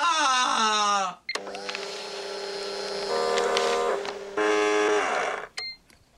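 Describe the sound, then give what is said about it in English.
Fax machines transmitting: steady, buzzing electronic tones with layered pitches, broken by a brief silence near the start and a gap near the end, with shifts in tone partway through. “So those are fax machines saying you're fired.”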